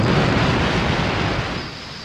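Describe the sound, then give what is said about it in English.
Explosion as a fighter's fire hits a protruding structure, which bursts into a ball of super-hot gas: a loud, dense roar of rumbling noise that holds and then slowly fades. “after saturating it with fire, he saw it erupt in a spectacular ball of super-hot gas.”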